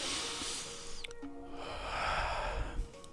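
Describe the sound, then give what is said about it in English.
A deep breath taken as a calming pause: two long, breathy rushes of air separated by a brief gap, fairly soft over faint background hiss. “one deep breath for the world one time”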